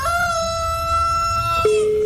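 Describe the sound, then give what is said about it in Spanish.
A rooster crows in one long, loud, steady harmonic call that drops abruptly to a lower pitch near the end, heard alone with no voices. “cuando usted está bien fogueado, no siente ni el canto el gallo”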